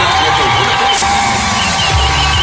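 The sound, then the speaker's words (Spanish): Loud, dense crowd noise as hundreds of people in Ceuta cheer at a gathering to watch a televised interview, a continuous roar with voices mixed in. “Así vitoreaban el inicio de la entrevista en Antena 3.”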